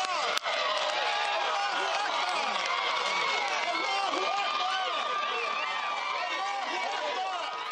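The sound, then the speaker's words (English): Loud cheering and shouting erupt from a crowd of Troy Davis supporters awaiting news of his execution. The roar of many voices is dense and sustained throughout, with a brief sharp spike near the start. “We're hearing some kind of cheer that has gone up.”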